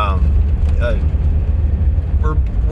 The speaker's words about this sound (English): I'm in traffic and someone just did something really dumb